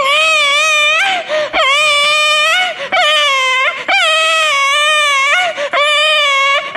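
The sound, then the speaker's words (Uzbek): A baby cries loudly and without pause in repeated wailing bursts, each cry wavering up and down in pitch, with short catches of breath between them. “Deb turgan ekan chaqaloq yig'lab qopdi.”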